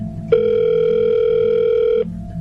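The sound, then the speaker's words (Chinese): A telephone tone as a call is placed on a mobile phone: one steady, clean pitched tone that starts abruptly, holds evenly for under two seconds, then cuts off sharply, with faint low background noise around it. “他咬着牙把心一横，决然的按早已记在脑子里的号码给李飞打了过去。”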